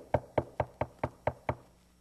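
Knocking on a door: seven evenly spaced, hollow knocks in a steady rhythm, moderately loud, then quiet.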